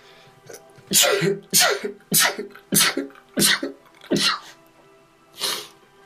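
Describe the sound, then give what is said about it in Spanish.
A person sneezes seven times in quick succession, each sneeze a sharp, breathy burst at a moderate level with short pauses between them. “Y voy a estornudar.”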